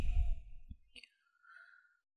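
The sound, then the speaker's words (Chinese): A faint, airy breath is blown out through the mouth as part of a breathing exercise. It is a soft, brief hiss that trails off into near silence. “因为我们呼气的时候是用口嘛，口往外呼气嘛。”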